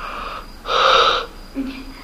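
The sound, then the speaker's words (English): A tired person yawning: a breathy, wheezy intake of about half a second, followed by a short, low voiced sigh as it fades. “at this time I'm also yawning”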